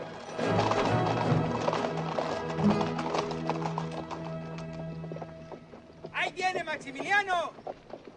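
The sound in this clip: Horses clip-clop steadily as riders pass through a Mexican township, with many dense hoofbeats throughout and a burst of high, wavering calls near the end.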